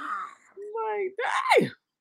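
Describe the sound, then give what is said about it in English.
A voice imitates a huge, lion-like yawn: a drawn-out, moaning vocal sound that shifts between tones and ends in a breathy burst with a sliding, falling pitch before cutting off. “I'm sorry, and I yawn like a real lion. You okay? Did? All the time, nigga. Ain't no small yawns over here. Them yawns be like,”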